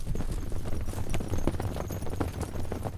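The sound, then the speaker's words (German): A zebra herd galloping away in flight makes a dense, continuous patter of many hoofbeats over a low rumble. The sound is fairly faint and steady throughout. “»Bei Gefahr können Zebras sehr schnell fliehen«, heißt es im Film. Und genau das passiert. Die Herde läuft davon und verschwindet in einer Staubwolke.”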